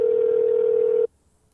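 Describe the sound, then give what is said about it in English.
A telephone dial tone: one steady, loud, mid-pitched hum that holds for about a second and then stops abruptly, leaving near silence. “So, okay, we're dialing him right now.”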